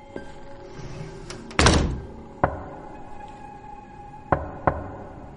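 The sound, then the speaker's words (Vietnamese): Knocking on a door, a few irregular dull thuds with one louder, longer blow among them, each standing alone against a quiet background with no voices. “xong thì tiếng gõ cửa lại tiếp tục vang lên. Anh ơi, có phải là tiếng gõ cửa hả?”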